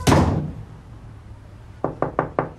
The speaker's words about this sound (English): He shuts the door again.